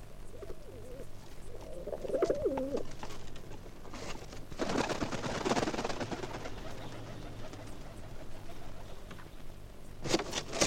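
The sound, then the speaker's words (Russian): Pigeon with a metal ring on its leg cooing: a few low, warbling coos early on, followed by stretches of steady, noisy background. “Смотрите, к нам прилетел голубь с металлическим кольцом на ноге.”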